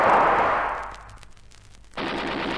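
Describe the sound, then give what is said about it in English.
Gunfire aimed at a swimming man: a dense, roaring burst of shots fades over about a second, then a fresh loud volley cuts in abruptly and holds steady to the end, with no voices. “They've opened fire on him. Shoot quickly.”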